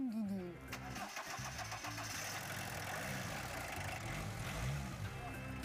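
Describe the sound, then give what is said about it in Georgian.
An old Soviet-style car fitted with a Fiat engine cranks briefly and catches, then settles into a steady, even idle that drones on, with voices talking over the running motor. “საბჭოთა მანქანებისგან მხოლოდ გარეგნული იერი დარჩა. შეგიძლია დაქოქოთ?”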